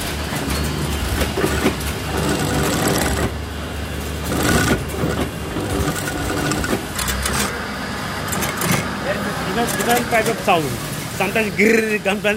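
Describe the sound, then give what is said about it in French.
A sewing machine in a clothing workshop stitches velcro onto trousers for a spring-summer collection, a loud, rapid mechanical clatter that runs in uneven bursts while people talk. “Mademoiselle derrière qui est en train de mettre les scratchs d'un pantalon.”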